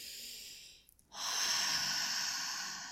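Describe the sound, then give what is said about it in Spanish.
Deep, slow breathing during a relaxation exercise for falling asleep: a soft breath, a brief pause, then a long, loud, airy breath that holds steady to the end. “si es el momento en que por fin me puedo dormir, pero traigo la cabeza volada, empezamos a respirar profundo.”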